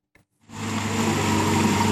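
A restored 1952 British jeep's engine starts after a faint click, then settles into a steady, loud mechanical rumble.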